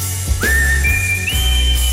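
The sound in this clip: Whistled melody of a song: a few clear, sustained high notes that step upward in pitch, over a steady low hum.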